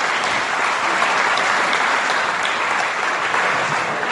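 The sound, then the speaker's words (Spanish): Audience applause fills a lecture at the UNS. Dense, steady clapping from many hands stays loud and even throughout, with no voices rising above it. “Moderemos los aplausos, pues soy un expositor, un charlista.”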